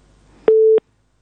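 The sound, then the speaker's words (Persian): A single steady, mid-pitched busy-tone beep sounds on a telephone line after a caller's call is cut off. It starts and stops abruptly with faint clicks at each edge, comes after low line noise, and is followed by silence. “خب تماس شنوندی ما قطع شد.”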